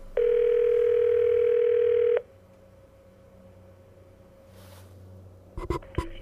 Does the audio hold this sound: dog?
no